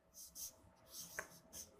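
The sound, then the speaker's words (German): Quick handwriting makes faint, scratchy strokes in a few short, brisk bursts separated by brief pauses, with no voices. “Ich muss ein bisschen schnell schreiben, der Talk ist schon bald fertig.”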